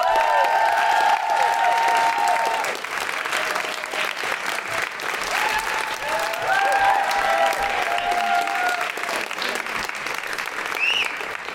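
Loud, sustained audience applause with cheering and whoops as a guest is welcomed onto a chat show, the dense clapping holding steady throughout.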